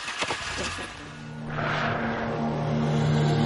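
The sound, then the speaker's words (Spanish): A car speeds along the roadway in the opposite direction and passes a vehicle parked on the shoulder. Its engine roar swells quickly and stays loud and broad to the end. “El coche del descampado se acerca velozmente en sentido contrario. Pasa a su lado por la calzada.”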